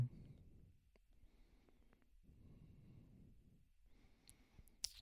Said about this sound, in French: si je clique dessus, ça va-tu me dire?